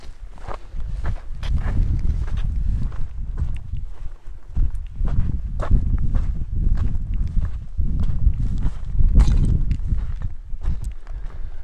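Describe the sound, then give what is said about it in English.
Footsteps climbing uphill on a hiking trail through a thick layer of loose, sliding sand: many dull, scuffing steps at a steady walking pace, fairly loud and continuous from start to end, with no talking. “there's such a thick layer of sand. It's like you're walking up a sand dune. So most steps you just sort of lose energy as the ground beneath you like slides down.”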